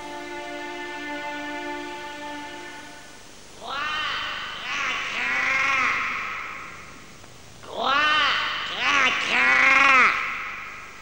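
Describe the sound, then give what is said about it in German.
A raven perched on a fir tree caws harshly in two bursts of several rough, arching calls, with a held musical tone sounding before them. “Guck lieber, der Rabe sitzt auf der Tanne.”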